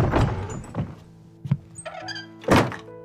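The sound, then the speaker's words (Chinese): A door is pushed open into a room and then shut with a bang. A few soft knocks and thuds build up to one loud, heavy slam near the end, with no voices. “说着他推门走进房间，关上门，砰的一声响”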